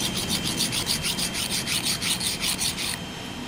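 A hand file rasps and slides across a workpiece with a soft layer in rapid, even back-and-forth strokes, many bright scraping pulses in a steady rhythm that stop abruptly shortly before the end.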